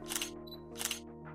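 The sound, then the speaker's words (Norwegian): A camera shutter snaps a photo of food for Instagram: two soft, crisp clicks about half a second apart over a faint, steady hum. “Må du bare stoppe opp og ta et fett bilde til Instagram når maten din er helt on point?”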